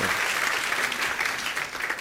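Audience applause, a dense, even patter of many hands clapping, fairly loud and steady from start to finish.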